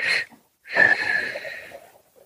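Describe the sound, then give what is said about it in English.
A short breath in, then after a brief pause a longer, drawn-out one, both airy and fairly loud, taken during a guided self-care breathing exercise, with no talking over them. “So we're just going to inhale again and short and long breath.”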